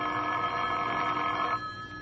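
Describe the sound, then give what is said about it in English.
A telephone rings in one steady, sustained electric ring for about a second and a half, then stops, leaving a faint hum. “The phone call came at 9:30.”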